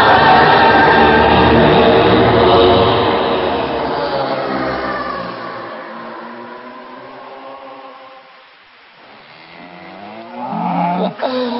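Cows waiting to be milked moo loudly: a long, drawn-out, deep call that slowly fades, then a shorter moo near the end, with no talking.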